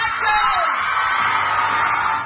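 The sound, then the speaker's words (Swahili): A crowd cheers, whoops and yells in celebration of the Miss World pageant winner. The roar is loud and dense, holding steady for the whole stretch without a break. “shangwe nderemo na vifijo. Shangwe nderemo na vifijo vilitokea wapi?”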